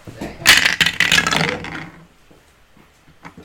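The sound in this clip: Dice thrown onto a table during a tabletop fantasy role-playing game give a burst of rattling, clattering clicks lasting over a second, followed by a few scattered faint clicks as they settle.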